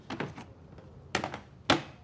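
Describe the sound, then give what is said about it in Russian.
Soft knocks and thuds of a label printer being moved on a desk, quiet overall. Short clusters of quick taps are followed by one sharper single knock near the end. “Она переставляет машинку для печати ярлыков с одного места на другое.”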